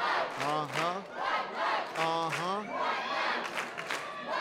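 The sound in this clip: A wrestling crowd chants loudly in unison, two rising-and-falling chanted phrases standing out over continuous crowd noise.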